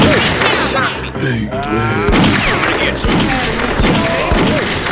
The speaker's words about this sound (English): Oh, that was close. Oh my gosh. He shot me.